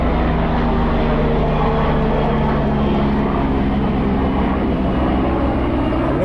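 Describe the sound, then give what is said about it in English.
A helicopter flying overhead above a walking trail gives a loud, dense, unbroken drone of engine and rotor noise. It holds steady and full throughout, with no talk. “You're going right over top of me again, you helicopter sucker.”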